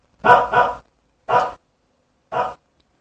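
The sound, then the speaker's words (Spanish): A dog barks happily in greeting: four short barks, two in quick succession and then two more spaced apart, with silence between them. “Un perro salió a saludarlos.”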